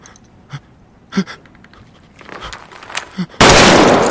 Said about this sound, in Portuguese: O jogador atira na própria cabeça.